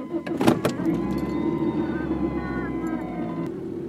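A car engine idles on a freezing day, giving a steady low hum with a thin tonal whine above it, after a few brief sharp clicks at the start.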